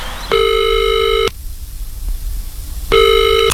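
A telephone call is being placed: two loud, steady electronic line tones, each about a second long, separated by a quieter pause.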